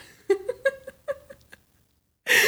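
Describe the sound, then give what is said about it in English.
A pet cat makes a run of about seven short, clipped chirping meows in a quick uneven rhythm. A brief pause follows, then a loud burst of noise at the end. “sorry, my cat walked in and he's making a joke.”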